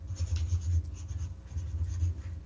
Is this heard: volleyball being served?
no